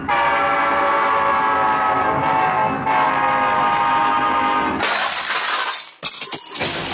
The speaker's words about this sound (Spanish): ¡Súbase al tren! ¡Súbase al tren!